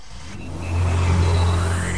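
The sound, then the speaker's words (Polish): A Nissan car engine revs from a quieter hum into a strong, low whirring roar, its tone climbing as it holds, with no talk over it. “Wiem, czym będziesz jeździć tego lata. Najbardziej ekscytujące przeżycia czekają Cię teraz w salonach Nissana.”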